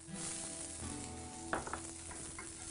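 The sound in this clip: Sizzling of leeks added to a pan over medium heat, right after English mustard is whisked in: a steady, fairly quiet hiss with a few brief crackling bursts near the middle and end, no talk.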